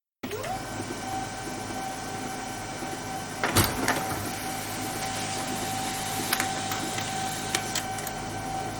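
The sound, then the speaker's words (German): A printer prints a letter meant for a window envelope, giving a steady mechanical whirring drone with a sustained tone and a few brief clattering clicks partway through and later on. “Und wir können das Ganze mal ausdrucken.”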